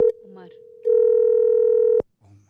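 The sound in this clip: Telephone dial tone heard while calling someone again: a steady single-pitch tone sounds briefly, drops away, then returns for about a second before cutting off, with faint voices around it.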